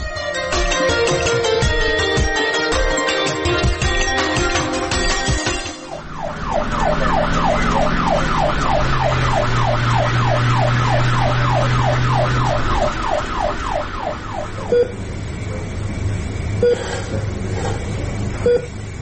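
An ambulance siren wails in a fast, repeating up-and-down cycle over a low engine rumble. It follows a stretch of dense, loud noise, sounds strongly for several seconds and then cuts off.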